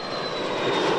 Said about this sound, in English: That's the sound of a U.S. Air Force fighter jet taking off from a base in Italy to participate in the air assault.